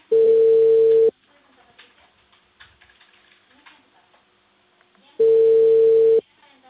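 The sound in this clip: Telephone ringback tone on an outgoing call placed from Peru: two loud, steady buzzing tones, each about one second long and roughly four seconds apart, with faint background noise in between.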